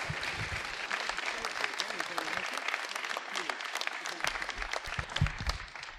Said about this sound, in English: Let's hear it for John Bruce, ladies and gents.